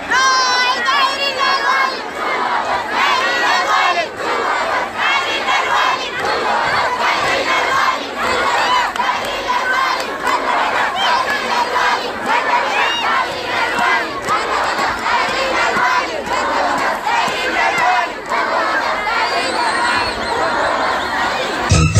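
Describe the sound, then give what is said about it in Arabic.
Protesting students chanting slogans, a loud crowd of many voices shouting together in sustained, rhythmic waves throughout. “وردد الطلاب المحتجون هتافات”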